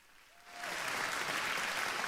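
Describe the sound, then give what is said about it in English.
A class of pupils applauds a classmate during a spelling lesson. Dense, steady clapping starts after a brief quiet moment and continues evenly to the end. “Okay, we clap out for you.”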